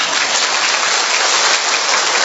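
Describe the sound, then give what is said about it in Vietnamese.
A church audience applauding: dense, continuous clapping that merges into a steady hiss of sound, even in loudness and without breaks from start to end. “vỗ tay cho nó phấn khởi đi”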